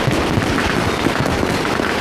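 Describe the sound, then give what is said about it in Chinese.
Fireworks and firecrackers over Shanghai make a dense, continuous wash of crackling pops and muffled bursts. The loudness stays steady, with no clear gaps between bursts and no voices. “你看那个烟花，像上一朵散开的花朵，是不是很好看？”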